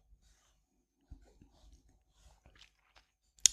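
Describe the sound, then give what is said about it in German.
Someone chewing and eating a tomato: faint, soft, irregular wet bites and mouth sounds with short pauses, ending in one sharper smack. “Ich esse jetzt meine letzte Tomate.”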